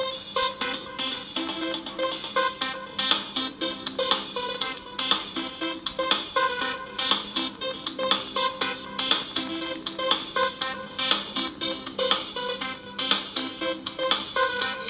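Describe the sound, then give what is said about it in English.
Background music plays while a call is being dialed in, a steady rhythmic track with regular pulsing beats and bright layered tones at a moderate, even level, with no talking. “So in the meantime, enjoy the business of listening to our background music.”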